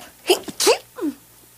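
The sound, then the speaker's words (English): A person's sneeze comes as a few short, breathy vocal bursts in quick succession, moderately loud over a quiet background. “What was that? Was that a sneeze? Yeah.”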